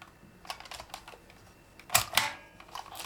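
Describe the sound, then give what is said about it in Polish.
Typing on a keyboard, including a press of the space bar: a scattering of soft, faint key clicks, then two louder, sharper strikes close together, with no talk. “Więc teraz robię odstęp. I piszę dalej.”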